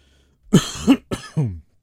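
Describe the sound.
Coughing from someone whose drink or food went down the wrong pipe: four short, rough coughs in quick succession, fairly faint, with no talking.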